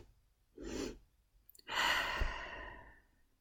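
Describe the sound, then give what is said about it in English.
A demonstrated calming breath: quick sniffing intakes through the nose, then a long, airy exhale out through the mouth that slowly trails off, soft and heard alone. “breathe in two times quickly through the nose and then a long exhale out through the mouth”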